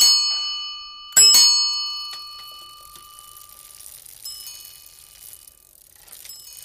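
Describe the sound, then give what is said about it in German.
A bicycle bell is pressed and rung loudly. A bright metallic ring fades from the start, then a second sharp strike rings out and decays slowly, leaving faint rustling behind. “Mach mal ein bisschen weiter nach links die Klingel. Drücken. Ey, jetzt aber nicht so doll. Drücken. Nicht da. Gut, passt. Super. Ich bin dran. Und sie ist auch ziemlich laut.”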